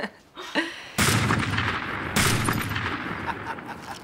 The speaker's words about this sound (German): Es geht doch nichts über eine gepflegte Schießerei unter Männern, nicht wahr? Eine Doublette.